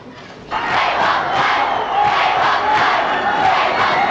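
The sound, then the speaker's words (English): A packed venue crowd roars and cheers as a band kicks off its show, the noise jumping up sharply after a quiet moment and then holding as a dense, sustained wall of voices. “The venue's packed out as the band kick off the show.”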